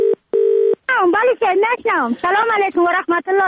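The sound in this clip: Telephone dialing: two short, steady electronic tones sound in quick succession, then a voice starts talking over the line.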